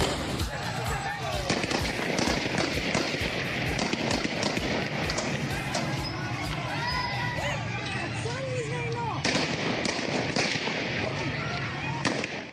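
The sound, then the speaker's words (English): A street demonstration in Afghanistan demanding women's rights, with gunfire: a dense crowd of shouting voices fills the whole clip, with sharp cracking bangs scattered throughout the roar. “That was the sound of a peaceful demonstration held a couple of weeks ago in Afghanistan, protesting, declaring, demanding the right for women to be seen,”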